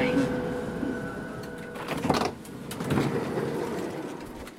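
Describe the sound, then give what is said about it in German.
S-Bahn train at Ismaning station in Munich. A steady mechanical whine cuts out partway through, then a few hissing, clunking door-like bursts rise and fade over low rumbling noise. “Okay, Christoph, ich habe ganz genau hingehört und ich habe rauskombiniert, dass du im Bahnhof in Ismaning bist.”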